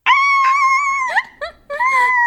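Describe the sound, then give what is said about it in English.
A human voice imitates a Shiba Inu dog's scream with a loud, sustained, high-pitched wail that breaks and wavers, dips briefly, then resumes as a second strained cry. “I gotta learn how to do the Sheba scream, right? Because the Shebas don't bark, they scream.”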